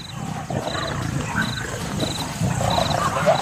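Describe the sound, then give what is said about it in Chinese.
Young male lions roar in a low, continuous rumble that fills the whole stretch at a steady level, while a repeated short, high chirp sounds at intervals in the background. “年轻的雄狮准备逼近。”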